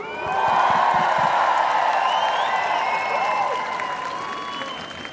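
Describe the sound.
Applause and cheering rise from a crowd at an on-stage event, swelling quickly to a dense, steady roar of clapping with whoops on top. The sound holds strongly for several seconds, then eases slightly toward the end.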